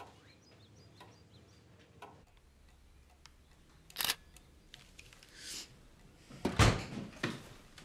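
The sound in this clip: Camera shutter clicks from photos being taken: a few short, sharp clicks spread unevenly through a quiet background, with the loudest near the end.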